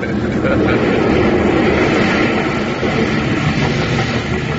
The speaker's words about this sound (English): There we are, on the ground again, pulling right up the runway.